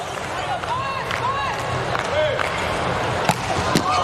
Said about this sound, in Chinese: 哇，这个球发出来了，哈内斯发球直接得分，快到130了，这个发球的时速。